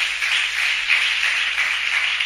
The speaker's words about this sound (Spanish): Regálele un aplauso a Jesús